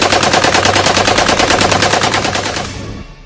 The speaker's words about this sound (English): you're going to man that 50 cal on the roof turret.